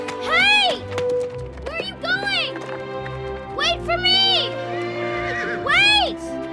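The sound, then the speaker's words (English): Colt whinnying several times while it gallops up a winding, rocky path: high, shrill neighs with a rising-then-falling contour, separated by short gaps and set over low sustained tones. “As she begins to catch up, the colt breaks into a gallop up a winding path.”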